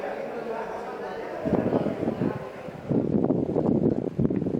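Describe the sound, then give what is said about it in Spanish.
Wind blows outdoors during a wildfire in Niebla, a steady, rough buffeting roar that swells louder in gusts, with a voice talking under it. “Esto que escuchan, el viento, es el mayor enemigo del incendio en Niebla.”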